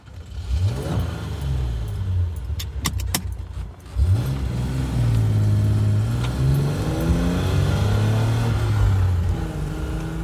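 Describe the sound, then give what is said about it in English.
A Z car from the story of street racer Big Willie Robinson being driven, its engine droning continuously with revs that sweep upward in pitch a couple of times before settling into a steady, throaty hum. “Are you happy that I have your Z and I'm driving it and then it's still with us?”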